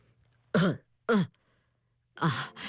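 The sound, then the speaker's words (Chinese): Dry coughs clearing the throat, in short, loud bursts separated by silence: two single coughs followed by a longer, doubled one. “郑浩担心长金会害怕，于是先干咳了几声”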